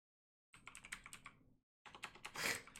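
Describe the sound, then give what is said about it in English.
Typing on a computer keyboard: two faint bursts of rapid clicking keystrokes separated by a short pause, with no talk. “I can't even type right now.”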